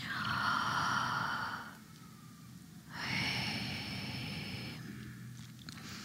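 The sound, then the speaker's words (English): A group breathing exercise in which people release a held deep breath together: two long, breathy exhalations, each several seconds long, separated by a quieter pause. “if you would take in a deep breath and then hold it and we'll release it together”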